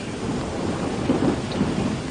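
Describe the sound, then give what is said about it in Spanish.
Thunder rolls as a deep, sustained rumble with steady rain hissing throughout, continuous and fairly loud with no sharp cracks. “¿Por qué me estremecí así? ¿Por qué ese trueno sacudió mi alma?”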